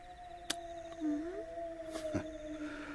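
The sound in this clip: Long, steady wolf howls hold level tones with a brief upward glide partway through, and a couple of sharp clicks cut in. No one talks.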